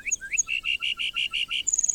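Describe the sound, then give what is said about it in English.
A lark bunting sings on the northern Great Plains: a couple of slurred opening notes, then a rapid, even run of repeated whistled notes, ending in a fast, high trill. “Why do so many species of birds choose the northern Great Plains to raise their young? Like the lark bunting,”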